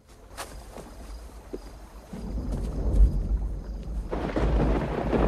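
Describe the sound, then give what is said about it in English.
Rolling thunder during a night lightning storm by a river: a low, continuous rumble that swells midway and grows louder toward the end, with no voices. “Lightning flashes in the sky.”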